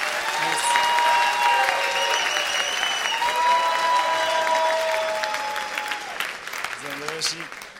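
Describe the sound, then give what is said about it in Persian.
Audience applause at a coaching seminar: energetic, dense clapping mixed with voices calling out, holding strong for several seconds before gradually thinning and fading. “دست مجلسی بزنید.”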